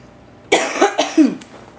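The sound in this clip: A man coughs in a quick burst of three harsh, throaty coughs, heard alone with no talk around them.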